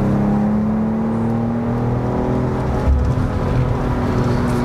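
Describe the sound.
A BMW car accelerates out of a bend with a loud, steady engine drone whose pitch climbs slightly as the throttle is held open.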